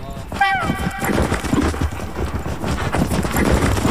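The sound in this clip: Horse hooves gallop at a grassland horse event, a steady clatter of hoofbeats mixed into loud crowd noise, with excited voices shouting throughout.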